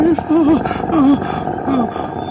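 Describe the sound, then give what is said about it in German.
A hungry stomach growls in four warbling, rumbling bursts, each a wavering moan that rises and dips, loud and close. “Ach so, da knurrt ja nur mein Bauch.”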